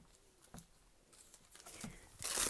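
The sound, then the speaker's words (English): Plastic trash bags rustle and crinkle as they are handled, with a few soft, faint crackling bursts that grow louder and denser at the end. “here's my trash bag. All these plastic bags.”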